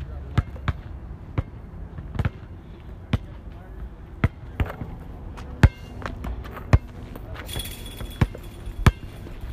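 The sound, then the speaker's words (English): Basketball dribbled on a court during practice: many sharp bouncing thuds in an uneven rhythm, with faint talk in the background. “Don't dribble too hard. This too hard, yeah.”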